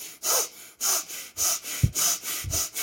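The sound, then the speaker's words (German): Rapid breaths in and out through the nose during an activating breathing exercise: about six quick, forceful, hissing bursts in an even rhythm, with no talking. “Dann atme schnell durch die Nase, 3-mal ein und aus. Also so.”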